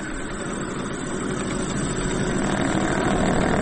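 A decades-old lathe runs with a steady mechanical hum and dense grinding drone. Its machine noise grows slightly louder over a few seconds, with no voices over it.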